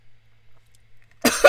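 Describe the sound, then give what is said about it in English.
A sharp double cough from someone with popcorn stuck in the throat, short and loud, following a near-silent pause. “I'm having popcorn. It got stuck in my throat.”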